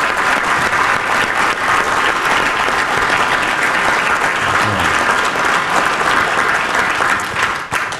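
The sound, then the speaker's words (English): Audience applause bursts out for guests at a live stage event, a dense, loud, steady clapping that holds throughout and eases slightly at the very end. “Can we give it up for Robert Lewis Brandon Edwards?”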